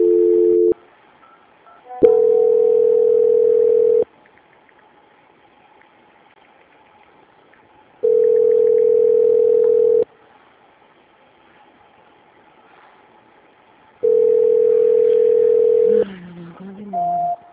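Telephone line tone on a call being transferred after it dropped: a short tone at the start, then three steady two-second tones separated by long silences, with a brief different sound near the end.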